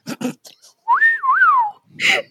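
A person whistles a short tune of a few smooth notes that rise, dip, rise again and fall. A few brief bursts of breath or mouth noise come just before and after the whistle.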